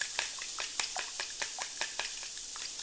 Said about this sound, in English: And then I just whisk the eggs up.